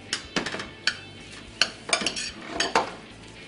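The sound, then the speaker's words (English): A metal spoon stirs Dijon mustard in a dish, giving many light, uneven clinks and scrapes against the container, fairly faint and with no talk. “We got some great DuPont Dijon mustard. Maybe a quarter. Spoon and mix.”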